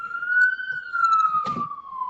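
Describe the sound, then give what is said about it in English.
Siren passing by outside a window: a steady, loud wailing tone that holds fairly level, then slides gradually lower toward the end, with a brief burst of rumbling noise partway through. “I guess I should wait for that siren. If you could close a window, I don't know. I don't know if it would help.”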